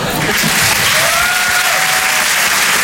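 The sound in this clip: Audience applause at a live comedy show. Dense, loud clapping from the crowd holds steady the whole time without any break.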